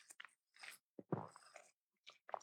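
Sipping a smoothie makes several short, quiet slurping mouth sounds. They come in irregular bursts with brief pauses between them, and no talking is heard.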